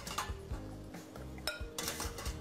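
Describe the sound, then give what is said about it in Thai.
Cooked taro is taken out and mashed, with faint clinks and scrapes of utensils against a bowl or pot in short, uneven bursts. “ปึ๊บเราก็นำเผือกออกมาเพื่อมาทำการบดมาเลยปึ๊บ”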